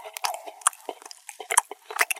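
Sardines are chewed in a string of irregular, soft, wet smacks and clicks, faint and with short pauses between bites.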